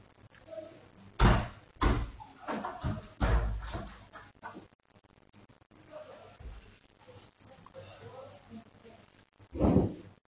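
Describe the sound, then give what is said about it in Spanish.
A window being closed gives a few dull thuds and knocks with a soft whoosh between them, quiet overall, the loudest bangs near the start and the end. “Mientras respondéis, voy a ver si cierro la ventana.”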